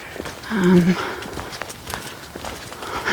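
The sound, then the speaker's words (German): Footsteps of a person walking along a hiking route, a steady run of soft, regular steps, partly under a voice. “Ich laufe gerade an einem Wegweiser vorbei, der leider keins von meinen Zielen heute drauf hat.”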